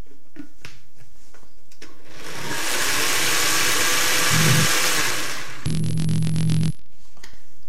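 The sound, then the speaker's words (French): A blender whirs as it purees cucumber soup with fromage blanc, a steady loud roaring spin lasting several seconds, then a brief shift in motor tone before it stops. “J'ajoute le fromage blanc. Je mixe rapidement.”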